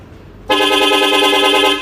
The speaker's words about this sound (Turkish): 7 çeşit korna. Bastığımızda korna değişiyor. Şöyle bir deneyelim, test edelim.